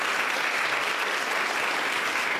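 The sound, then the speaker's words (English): Audience applause at a literary reading as a poet and author is introduced: dense, steady clapping from many hands that holds at an even loudness throughout, with no voices over it. “A round of applause for Yirga”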